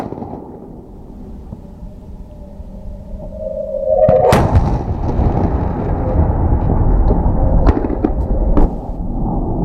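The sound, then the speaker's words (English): A US hypersonic missile test at a military base: a low rumble gives way, about four seconds in, to a sudden loud roar that holds steady to the end, broken by a couple of sharp cracks late on. “the Pentagon does not have a ready-to-deploy hypersonic missile of its own. U.S. is just like China. It's still in a testing phase. Actually, here's what one of those tests sounds like.”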